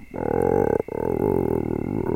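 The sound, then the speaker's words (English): A stomach growls from hunger in a deep, drawn-out rumbling groan, loud and steady, broken once by a brief gap before it carries on to the end. “Oh, sorry. I haven't eaten in a while. That was just my stomach.”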